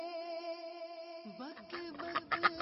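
Duck quacking: a few short, nasal, rasping quacks in the second half, following a steady sustained tone that fills the opening.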